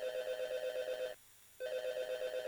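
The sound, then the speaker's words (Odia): A telephone ringing with two buzzing electronic trills separated by a short pause. The rings are steady and moderate, and no voices are heard. “ତାହେଲେ ଆସନ୍ତୁ ଦେଖିନେବା ଆମର କୋଉ ବନ୍ଧୁ ଡାଏଲ୍ କଲେଣି। Ring ring ring.”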